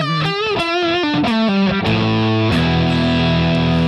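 An electric guitar through a mini drive effects pedal gives a fuzzy, distorted tone as it plays a quick descending run of single notes, then settles on a thick, sustained low chord.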